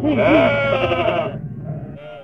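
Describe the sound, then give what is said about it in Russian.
Goats and billy goats bleat as they lead a procession of animals. One long, wavering, nasal bleat is followed by fainter, lower calls. “Возглавляли процессию 220 коз и козлов.”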